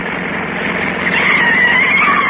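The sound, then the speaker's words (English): A car swerves sharply toward a curb with its tires skidding: a dense, steady roar of road and engine noise, with a thin high tire squeal rising out of it midway and fading slightly at the end. “Now cut over, Yuki. Force him to the curb. Right. A quick turn of the steering wheel to the right, and here we go.”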